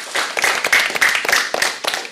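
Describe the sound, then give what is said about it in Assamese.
A group claps hands at a gathering where a child is about to sing, producing many loud, irregular claps in a quick uneven patter that runs the whole clip with no talk. “বাৰু সকলোৱে হাত চাপৰি বজাই দিয়া।”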